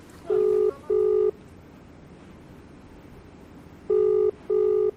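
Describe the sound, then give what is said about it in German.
Telephone tones of a call being dialed and ringing, set in Delhi: four steady, even-pitched electronic beeps in two pairs, with a long pause between the pairs and no voices. “Zurück in Delhi, ein Anruf bei Avikal Somvashi.”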